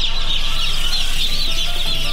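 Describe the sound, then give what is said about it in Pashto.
Chickens at a poultry production farm in Khost clucking in a dense, continuous chorus, a steady flock clamour with no clear pauses across its short length. “په خوست کې د چرګوړو د تولید فارم ته سر ورښکاره کړو.”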